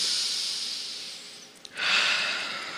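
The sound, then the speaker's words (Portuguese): Air is drawn in through the nose during a breathing exercise, heard as two long, airy breaths split by a brief gap. The second breath starts sharply and sounds brighter, then eases off slowly. “Faz assim, ó, puxa com o nariz, vai lá. Respira. Mais uma vez.”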